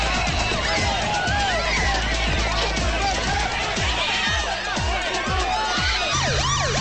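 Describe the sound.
Several police car sirens wail as they arrive on a chaotic party scene, their overlapping rising and falling tones loud and continuous throughout.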